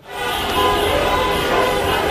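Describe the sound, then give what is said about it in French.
Car horns honk together in a nationwide street celebration in Argentina after the national football team reached a final, forming a dense, continuous blare of overlapping horn tones. “Concert de klaxons et des centaines de milliers de personnes dans les rues de tout le pays”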